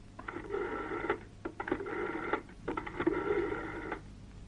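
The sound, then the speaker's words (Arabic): Telephone being dialed, heard as three long buzzing tone bursts separated by short pauses, fairly faint and with no voices. “يلا اضرب له تليفون”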